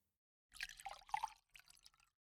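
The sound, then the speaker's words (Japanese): A drink is poured into a cup in splashy, bubbling bursts of liquid, with a brief break midway before a quieter final trickle. The sound is fairly faint and has no talk over it. “ほら、コップ、貸して。注いであげるから。”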